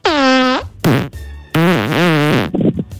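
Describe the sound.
Comic fart sound effects, like the noises a butt makes when an anal plug is pulled out, come in a few loud, buzzy, tonal bursts of varying length, with no talking.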